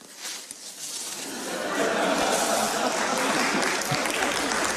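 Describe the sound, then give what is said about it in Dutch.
Applause at a shareholders' meeting, with clapping from a crowd that swells after a couple of seconds into a steady, dense, loud patter. “Ik begreep dat hij de enige spreker was die uiteindelijk applaus kreeg op die hele aandeelhoudersvergadering.”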